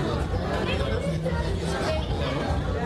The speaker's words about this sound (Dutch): We bevinden ons in de arena. We bevinden ons op niveau 4.